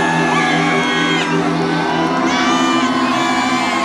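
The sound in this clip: An audience at a live event cheers and makes noise, with whoops, yells and sustained shouting blending into one loud, continuous roar that stays strong throughout.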